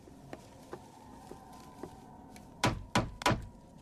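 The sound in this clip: Knocking on large castle doors in an audio drama: three loud, heavy knocks in quick, even succession, with faint taps before them.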